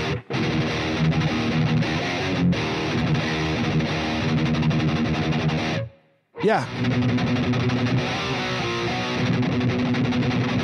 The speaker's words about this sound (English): So I'm going to turn the chorus down just a touch there, too, on that.